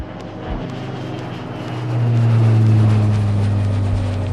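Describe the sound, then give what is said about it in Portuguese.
A jet airplane takeoff sound effect: a steady, rumbling engine roar that swells noticeably louder about halfway through and holds as a deep, sustained drone. “Aperte os cintos, pois esse jatinho vai decolar!”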